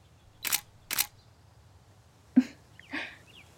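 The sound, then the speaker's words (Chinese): Camera shutter clicks as photos are taken of a posing woman: two sharp, bright clicks about half a second apart, each short and crisp, with quiet around them. “你快对着姐姐拍照呀。”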